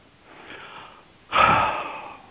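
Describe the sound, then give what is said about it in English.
A group takes a big deep breath during a centering meditation, first a soft, drawn-out airy rush, then a louder, noisier breathy whoosh that tapers away. “So let's all take our big deep breath”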